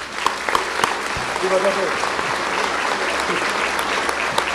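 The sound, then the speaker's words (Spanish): An audience applauds loudly to welcome a priest at an evening religious talk. Dense, steady clapping fills the whole stretch, and a voice is briefly audible within it. “padre Luis Eduardo Toro, a quien le damos aplausos fuertes”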